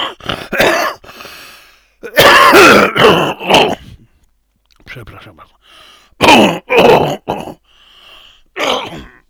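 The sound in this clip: Harsh coughing and throat clearing from tired, worn-out lungs come as a series of loud, rasping bursts separated by short silent pauses.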